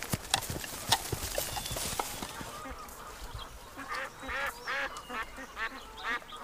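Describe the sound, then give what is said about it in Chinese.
Ducks quack in a run of nasal, honking calls through the second half. Before them comes a series of sharp clopping knocks like hooves. “喂，小孩，把鸭子赶走。”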